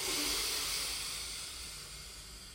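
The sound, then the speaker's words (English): A full, slow inhaled breath during a guided sleep-relaxation exercise: a soft airy hiss that starts strongest and gradually fades over a couple of seconds, with no voice. “Take a full inhale.”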